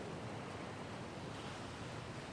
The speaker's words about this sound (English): When I was there, it was an absolutely beautiful day, but quite honestly, the waves were a little bit underwhelming.